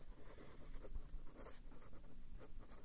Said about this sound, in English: Let me write it down because I didn't write it down before.